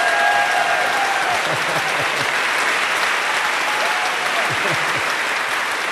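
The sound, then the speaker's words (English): Standing ovation from an audience: dense, continuous applause stays loud and steady throughout, with voices faintly mixed in among the clapping crowd. “Well, our radio audience should know that you just got a hell of a standing ovation.”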